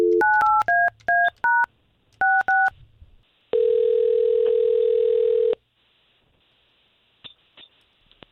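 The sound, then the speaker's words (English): Telephone keypad dialing a number: two quick runs of crisp dual-tone beeps, then a single long, steady tone lasting about two seconds, followed by near silence. No voices. “So let's see what's going on here, okay? Sounds good. All right, let's call her.”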